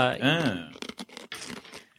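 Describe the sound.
Crunching a hard watermelon-flavoured rock lolly: a brief voice, then a series of crisp, noisy crunches in quick, uneven bursts.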